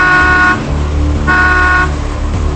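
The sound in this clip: A car pulls forward at a toll booth with a steady low engine rumble, and two long, bright horn blasts sound over it, the first at the start and the second about a second later.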